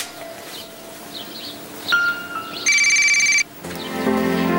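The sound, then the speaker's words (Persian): Electronic telephone ringtone rings in one loud, steady burst of stacked bright tones, framed by quieter tonal beeps before and a softer harmonic tone sequence after, with no talking. “به تلفن تو جواب میدیم بله ببخشید”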